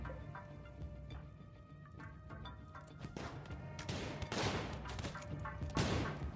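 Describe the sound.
Gunfire in a video game of gunners rescuing colonists: rapid bursts of shots and sharp cracks, fairly faint at first and growing louder and denser in the second half.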